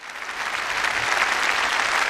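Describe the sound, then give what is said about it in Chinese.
Applause from an audience honouring an economic crime police officer at a ceremony, a thick, even roar of clapping that builds slightly in the first moment and then holds steady. “我们再一次把饱含敬意的掌声送给薛涛，送给所有的经侦人。”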